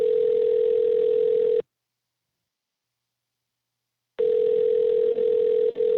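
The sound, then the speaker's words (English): Steady telephone tone heard while calling a senator's office: a single low, even hum that cuts out after about a second and a half, leaves roughly two and a half seconds of silence, then resumes until the end. “All right, dialing. Here we go. Calling our calling our senators.”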